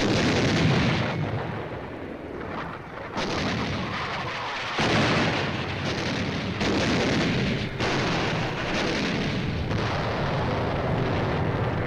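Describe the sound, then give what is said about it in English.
Heavy naval bombardment of a WWII island's Japanese beach defenses before a landing, fired by battleships, cruisers, destroyers and rocket ships: a dense, continuous roar of overlapping booms and blasts, with many distinct salvos breaking through the rumble. “In preparation for the landing, scores of battleships, cruisers, destroyers, and rocket ships begin a bombardment of the island in order to clear out the Japanese beach defenses.”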